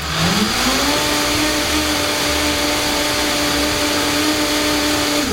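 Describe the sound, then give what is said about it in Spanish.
A blender whirs as cream is blended into a mixture. The motor whine climbs in pitch over the first second, then holds a loud, steady drone with a constant hum to the end. “Es el botecito pequeño de 200 gramos de crema. Lo vamos a agregar y volvemos a licuar.”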